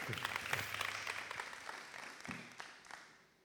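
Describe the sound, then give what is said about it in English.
Audience applause welcoming a speaker at a morning gathering: a dense round of clapping that stays steady, then thins and fades out toward the end. “Let's give her a hand.”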